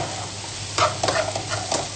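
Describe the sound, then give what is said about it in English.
Sliced mushrooms frying in a pan, a steady sizzle with a few brief stirring scrapes as they are tossed around. “Let the mushrooms fry for approximately 10 minutes, or at least the liquid from the mushrooms should disappear, and let them get slightly brown.”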